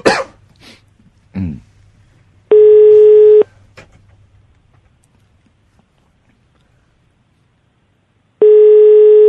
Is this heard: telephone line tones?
yes